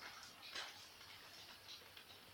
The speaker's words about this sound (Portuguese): Tá chovendo, tá chovendo.